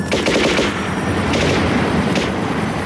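Rapid gunfire from guns shooting at a tiger shark rattles on as a dense, loud, continuous barrage of overlapping shots.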